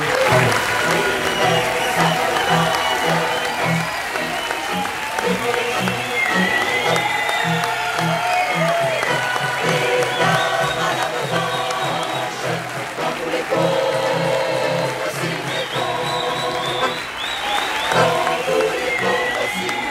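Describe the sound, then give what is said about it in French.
An audience in a hall sings a song together while applauding, welcoming guests at an event. The voices and clapping form a steady, loud, dense wash that holds from start to end. “J'entends cette belle chanson qui dit « Les mauvais jours finiront ». C'est magnifique de se faire accueillir avec, avec cette, cette chanson.”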